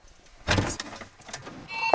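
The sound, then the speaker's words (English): A dusty Freightliner truck hitched to a flatbed trailer starts up on a farm, with a loud burst about half a second in, then quieter clunks and rattles and a short sharp sound near the end. “Farmer Don Beatty fires up a dusty Freightliner hitched to a flatbed trailer.”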